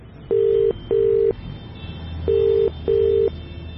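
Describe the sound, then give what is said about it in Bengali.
Ringback tone of a mobile phone call: two pairs of steady, mid-pitched beeps, the pairs separated by a pause, clear over a low background hum. “রেড়াখালে পৌঁছে রিজুদাকে মোবাইলে phone করলাম।”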